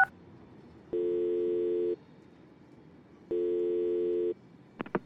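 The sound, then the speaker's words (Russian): Ringback tone of a call placed on a smartphone: two steady, even beeps of about one second each, separated by a long pause, followed by a few short clicks at the end. “я набираю в телефонной книге «Спири». И мягкостью большого пальца жму в надпись «Дмитрий Спирин» на залапанном экране телефона.”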